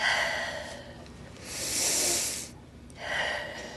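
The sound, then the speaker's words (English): A patient takes deep breaths during a lung exam at a primary care doctor's office: long, airy breaths that swell and fade in turn, with short quiet gaps between them. “Nice deep breath.”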